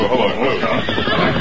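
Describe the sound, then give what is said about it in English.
Horses neigh, a short loud whinny set in a dense, rough wash of sound lasting just over a second. “Stable the horses”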